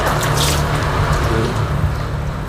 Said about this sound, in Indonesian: cuci tangan dulu biar bersih